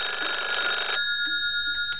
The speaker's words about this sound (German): Plötzlich klingelte das Telefon.